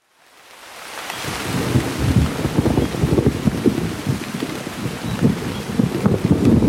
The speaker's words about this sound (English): It's raining. The roads are wet.